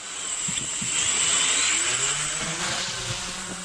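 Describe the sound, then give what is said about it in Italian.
Buzzing motor of a flying drone that sounds like an old Piaggio Ciao moped: a steady, faint, droning whine with a low engine rumble beneath it and no talking. “Era un drone o un motorino? Più un motorino che un drone, ma cascano i droni. Sai, abbiamo visto che cadono, quindi insomma. Il vecchio ciao della Piaggio, sembrava.”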